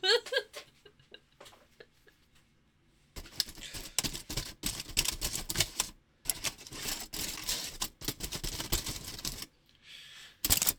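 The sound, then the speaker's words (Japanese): Aluminium foil crinkles and rustles as it is wrapped: a few sharp ticks first, then long stretches of dense, crackly bursts broken by brief pauses. “私はアルミホイルも巻けないのか”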